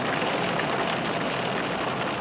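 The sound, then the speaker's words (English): Steady rain falls outside, a continuous dense hiss of drops that stays even in loudness from start to finish, with no voices. “Hopefully I'll wait until this rain kind of peters out.”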